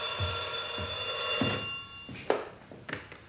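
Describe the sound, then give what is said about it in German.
A telephone bell rings in a home library, one sustained metallic trill that then stops, followed by a few soft knocks, all fairly quiet. “Dann läutete das Telefon.”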